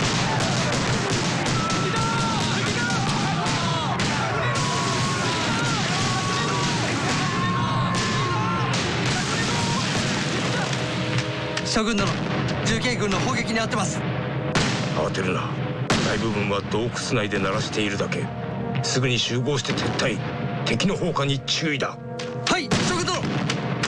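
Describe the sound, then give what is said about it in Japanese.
Mountain artillery guns shell enemy campfires in a loud, dense barrage. Heavy booms and gunfire continue without pause throughout, and voices can be heard under the din. “集中我们所有的山炮，对准这些篝火堆，给我猛轰这些王八羔子！”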